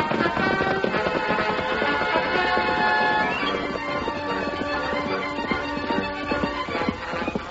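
A horse named Silver gallops as a radio-drama sound effect, its hoofbeats making a rapid, rhythmic clatter. Tonal music plays throughout underneath.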